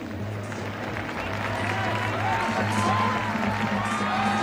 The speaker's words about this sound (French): Bravo en stéréophonie. C'est l'accueil que j'espère pour la Lettonie.